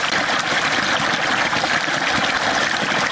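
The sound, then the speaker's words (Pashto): Water pumped up from underground by machines to irrigate crop fields in Kandahar's Dand district, heard as a steady, loud, continuous rush of flowing water that stays even throughout, with no voices. “د کښتونو لپاره دا اوبه د ځمکې له تل څخه راایستل کیږي.”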